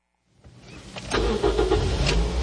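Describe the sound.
A car engine starts, rising briefly from quiet and then catching into a steady, loud running rumble that continues to the end.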